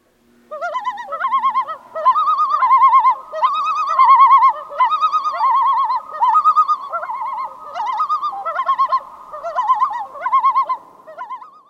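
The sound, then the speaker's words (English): Common loon giving its tremolo call, a wavering, laugh-like series of rapidly quavering notes repeated in several loud bursts with short gaps, clear and alone. “it's called the tremolo, a wavering call given when a loon is alarmed, or it's used to announce its presence at a lake”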